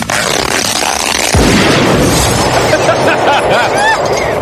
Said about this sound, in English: Exploding Barbie's filled with plastic explosives, so when you pull her hair...